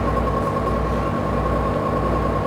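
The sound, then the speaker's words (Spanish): A bus departs with a steady, even engine rumble and a faint constant whine above it. No voices are heard. “Saliendo, venimos patana. Ya se va el bus.”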